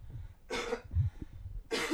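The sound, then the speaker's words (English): Two short, harsh coughs, each a brief noisy burst, separated by about a second of quiet low murmur. Both are fairly faint. “Cough, cough.”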